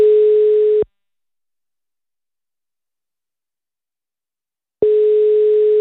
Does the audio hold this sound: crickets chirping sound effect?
no